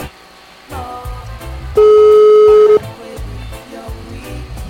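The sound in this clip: A telephone call is dialed: one loud, steady electronic tone holds for about a second over a quieter rhythmic background.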